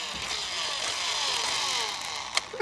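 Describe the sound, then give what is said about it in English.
Electronic revving sound effect from a Hot Wheels toy bike, a steady, buzzy engine-like whine with wavering tones, ending in two sharp clicks. “Bike's a Hot Wheels bike and makes some sounds when you rev it up.”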